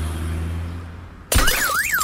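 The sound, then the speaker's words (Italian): Car glass shatters when an iPhone 14 Pro Max dropped from a window hits a parked car: a sudden loud crash cuts through steady background noise, then a warbling alarm-like tone rises and falls. “Vediamo se l'iPhone 14 Pro Max cade dalla finestra veloce come il 12. Vai.”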